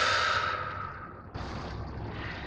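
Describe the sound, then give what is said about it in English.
A long, deep breath drawn in through the nose and let out through the mouth during a guided relaxation exercise. It is a soft, steady, breathy rush of air in two phases, heard alone with no talking. “So we're going to take a nice long deep breath in through the nose and out through the mouth if possible.”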